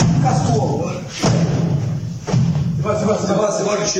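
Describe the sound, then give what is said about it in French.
Dull thuds of blows land on a man lying on the ground, his head striking the ground, in filmed video footage. A few muffled impacts come through dense noise while people talk. “Le bruit mat qu'on entend, c'est les coups qu'il prend et exactement. C'est sa tête qui heurte le sol. C'est les coups que vous entendez.”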